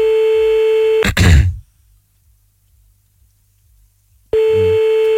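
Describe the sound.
Telephone line tones sound while a caller is being rung back: a loud steady tone cut off by a click and a short noisy burst, a few seconds of silence, then the steady tone returns.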